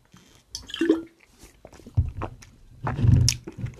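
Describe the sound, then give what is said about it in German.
Sips and swallows of an energy drink come as a few short, wet gulping bursts, separated by quiet pauses, with a louder cluster near the end. “Ich trinke mal kurz hier ein bisschen Energy”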